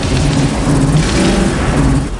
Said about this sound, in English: The car seems to struggle to beat 55 as the chopper flies up behind them.